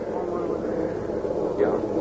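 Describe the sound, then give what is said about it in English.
Bomber aircraft flying overhead produce a steady, dense low droning rumble that holds evenly throughout with little change in loudness. “Oh, Mama. The bombers.”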